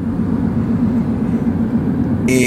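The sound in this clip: Car driving in traffic, heard as a steady low rumble that holds evenly throughout, with a brief brighter burst of sound at the very end.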